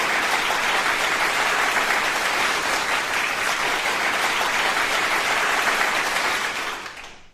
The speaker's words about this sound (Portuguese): palmas pra ela, palmas. Não, mais palmas. Uma multidão de aplausos pra ela!